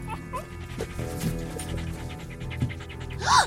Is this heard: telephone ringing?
no